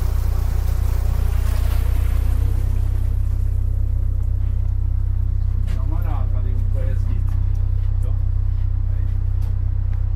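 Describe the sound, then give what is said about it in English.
A passenger ferry's motor drones low and steady, loud and unbroken from start to finish, aboard a tarpaulin-covered boat with wooden benches; a softer wash of water-like noise rides above the engine rumble. “That's the sound of the motor.”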